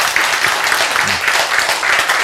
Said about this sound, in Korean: 박수.